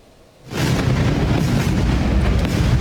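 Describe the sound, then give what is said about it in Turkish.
Explosion in a southern Iranian city: a loud, heavy blast bursts in after a brief quiet and leaves a dense, steady roar and rumble that holds at full strength to the end, with no voices. “İran'ın güney kentlerinden peş peşe patlama sesleri yükseldi.”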